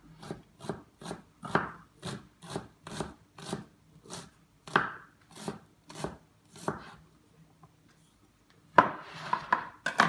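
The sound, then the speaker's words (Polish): A knife chops half a red onion into small pieces on a board: many crisp, evenly spaced cuts in a steady rhythm, a brief pause, then a denser scraping burst. “Teraz wezmę połowę czerwonej cebulki. Przekroję ją. Bardzo takie malutkie kawałeczki”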